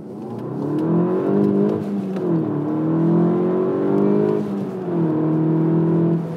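A Volkswagen Golf GTI Clubsport, the 40th-anniversary GTI model, drives and accelerates. A steady engine drone climbs in pitch as revs build, then drops back at a couple of gear changes before rising again, with no talk over it.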